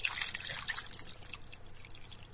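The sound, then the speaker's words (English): Two quarts of stock are poured into a cooking pot, making a faint, continuous splashing trickle with a bright liquid texture that gradually eases off. “And now we'll take that 2 quarts of stock and we'll throw the stock into the pot.”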